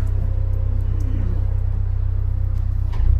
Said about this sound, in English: and that's the motor. Full power.